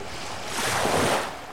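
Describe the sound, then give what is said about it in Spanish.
Furious storm wind with huge waves tossing a small boat: a broad rushing roar of wind and surf that swells through the middle and eases toward the end, with no voices. “El viento se ha tornado furioso y en su ímpetu levanta enormes olas que suspenden la barcarola casi en el aire”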